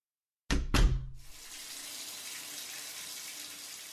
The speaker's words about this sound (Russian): Дверь в ванную закрылась. Убаюкивающий шум воды отрезал Шаю от остального мира. Это Нандер ушел смывать с себя грязь и кровь подземелий.